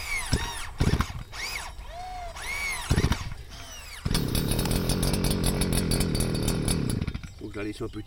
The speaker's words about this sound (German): Mähen der Heckenränder mit Motorsense.